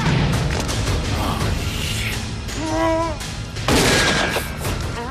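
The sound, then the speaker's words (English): Gunfire during a chase across a road lined with parked cars, where a fleeing man is shot in the leg: a few sharp bangs over a loud, noisy background, with a heavier blast near the end. “falls as he's shot in the leg”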